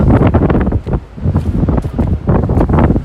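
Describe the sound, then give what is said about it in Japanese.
Strong wind blowing in from the sea, buffeting the microphone in loud, rough gusts that surge and briefly ease in an uneven rhythm. “風が強いね。 ちょっと強い。 風が海の方向から”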